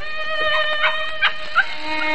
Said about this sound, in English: Quiet, you pups, quiet. Down, down.